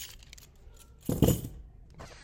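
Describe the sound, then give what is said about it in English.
Keys jangling as someone tries them at a run-down home, a short metallic burst of clinks rising out of quiet surroundings midway and then settling. “Now let's see if these keys still work.”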